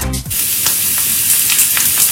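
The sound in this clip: A premium steak sizzles in a hot pan, producing a loud, continuous frying hiss with crackles and small pops and no talking.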